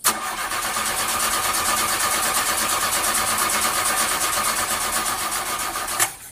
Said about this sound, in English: Okay, let's not give up so quickly. Peppa's going to try starting the vehicle again.